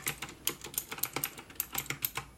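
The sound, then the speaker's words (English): Typing on a computer keyboard during a retro video game store roleplay, a quick, irregular stream of many soft, crisp keystrokes, faint and alone. “Okay, so let's go ahead and type in Harvest Moon Magical”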